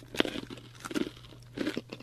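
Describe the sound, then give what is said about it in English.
Someone crunches on crunchy seaweed algae chips, with three short bursts of brittle crunching and chewing and quiet gaps between them. “This one tastes a lot more like seaweed, but crunchy seaweed.”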